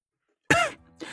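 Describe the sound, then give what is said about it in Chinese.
A man clears his throat with a cough: one abrupt, raspy burst, then a quieter follow-up rasp. “白衣男子脸色微变，咳了咳，”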